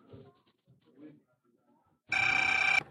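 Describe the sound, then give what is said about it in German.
A telephone rings in a hotel room with a bright, rapidly trilling electronic ring lasting under a second, and a second ring starts right after. Brief, quiet talk comes before it. “Das Telefon riss ihn aus seinen Erinnerungen.”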